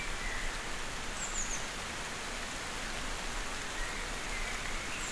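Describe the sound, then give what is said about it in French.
Light spring rain shower falling as a soft, even patter and hiss, faint and unbroken throughout with no other distinct sounds. “Juste une ondée. Ondée printanière.”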